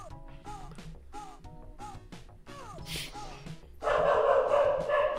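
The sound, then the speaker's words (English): Sampled dog barks and yips play inside an upbeat video game music track, repeating rhythmically at two pitches in step with the beat before the music swells into a louder, denser passage. “I like these dogs are in the track, too. Yeah. Kind of in sync. The dogs are singing along to the track.”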